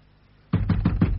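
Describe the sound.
Knocking on a house door: five quick, evenly spaced, loud raps in a rapid burst after a moment of near silence.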